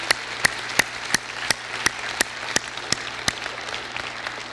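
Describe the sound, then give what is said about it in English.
Audience applause at a Mother's Day gathering: steady, dense clapping from a crowd, with sharper single claps standing out at a regular beat over the continuous wash. “So would you give all the special ladies in our life just a great big giant hand and thank them for all they do.”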